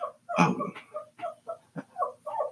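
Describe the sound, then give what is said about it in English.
A small dog yaps for attention in a quick, uneven series of about eight short, sharp bursts at moderate loudness, with no talk over them. “hush, dog.”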